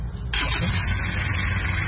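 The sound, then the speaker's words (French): A car engine restarting at a market: a low rumble that abruptly surges into a steady, fairly loud roar, then holds evenly to the end. “redémarre sa voiture”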